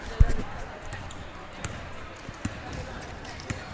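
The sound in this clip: A few irregular thumps of a basketball dribbled on the court during a high school girls' game between East Limestone and Ardmore, heard over a low, murmuring crowd.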